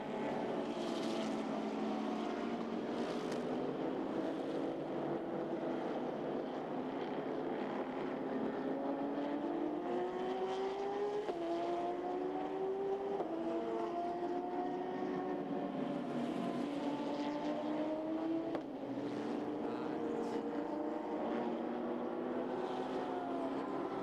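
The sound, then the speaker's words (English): Race car engines drone as cars enter the pits at night in the iRacing Petit Le Mans endurance event. The steady, layered engine hum has strong harmonics that step up and down in pitch. No one talks. “2 hours to go then for the iRacing VCO. This is one of the big events of the year, and it's Petit Le Mans. Parallax Racing into the pits in the darkness.”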